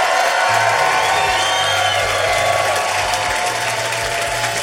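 A live audience gives dense, sustained applause and cheering as a standing ovation at the close of a show. The loud clapping holds steady throughout, with scattered whoops mixed in.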